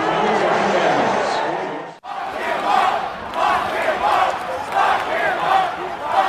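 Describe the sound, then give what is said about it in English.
A stadium crowd at World Series Game 5 reacts to the US president shown on the jumbotron, first with a loud, sustained roar of boos. After a brief cut, massed voices break into a rhythmic, pulsing chant. “Here's the crowd's reaction. Sounds like there's some boos. Yes. And then they start chanting.”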